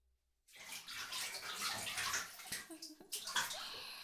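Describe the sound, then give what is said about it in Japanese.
Water splashes and sloshes in a bathtub as fresh, soap-free water is used to wash a face, a continuous bright splashing with a few sharper splashes toward the end. “泡じゃないお水。新しいお水。手出して。顔洗っていいよ。”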